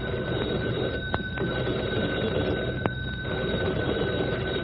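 An old-fashioned telephone bell rings in a firehouse, a loud, continuous metallic jangle that runs unbroken from start to end, marked by a couple of faint clicks and no voices.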